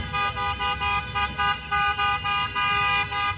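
Car horns honk from a convoy of Turkish fans' vehicles greeting the national football team in Los Angeles. Many loud, blaring honks pulse in a steady, overlapping rhythm.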